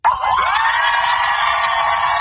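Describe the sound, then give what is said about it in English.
Cheering from a large crowd of family members and loved ones as the aircraft carrier USS Abraham Lincoln pulls into port in San Diego. Loud, sustained shouts and whoops with no break. “A large crowd of cheering family members and loved ones greeted the aircraft carrier as it pulled into port today”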